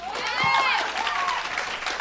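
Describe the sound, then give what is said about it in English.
Audience applause from the women in a crowd, a steady dense patter of clapping that lasts the full two seconds at moderate level, with voices mixed into it. “Just the women clapped.”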